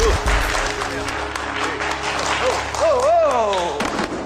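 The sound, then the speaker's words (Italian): Applause fills the whole clip as a steady, dense patter of clapping, with a voice audible over it. “Ma che è sta applauso? Qua stiamo parlando di cose serie.”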